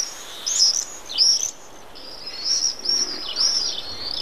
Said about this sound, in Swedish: Här på slutet hörde vi hur tornseglaren låter.